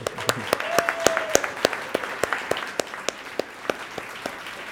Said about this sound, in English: Let's give them all a hand.